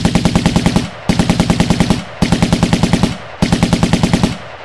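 Machine-gun fire in a video game aimed at creatures climbing upward: four loud bursts of rapid shots, each about a second long, separated by brief pauses.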